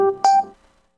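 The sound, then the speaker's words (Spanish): Electronic telephone tones as a live call is placed: a steady, loud, multi-toned hum with a brighter beep near the start, then fading away within about a second. “Vamos a hablar con ella, voy a hacer la llamada en vivo”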